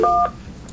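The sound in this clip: A single telephone keypad dialing tone sounds as someone calls a number: one short, steady electronic beep that stops abruptly, leaving near-silence.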